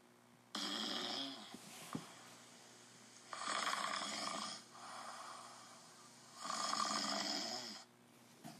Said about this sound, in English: The sound of snoring men filled the tent.